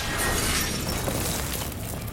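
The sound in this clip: Shattering crash as an aircraft cockpit is shot out in a video game: a loud, dense burst of breaking and debris noise that holds steady for the whole stretch.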